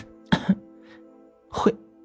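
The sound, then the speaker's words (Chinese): A man with a choked voice clears his throat forcefully twice. Each time is a short, rough rasp, and about a second of quiet falls between the two efforts. “他的声音哽住了，使劲清了清喉咙才说完”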